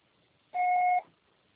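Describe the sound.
A single voicemail beep closes an Oi phone network's greeting: one steady, clean electronic tone lasting about half a second, sounding alone against a faint hiss.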